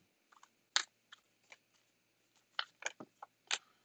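Tarot cards being shuffled: an irregular scatter of faint, crisp snaps and flicks, with one louder slap among them.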